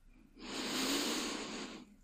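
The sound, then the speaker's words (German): A slow inhalation during a guided relaxation exercise, a soft, smooth, airy hiss that swells and holds for over a second before fading, heard alone. “Atme ein.”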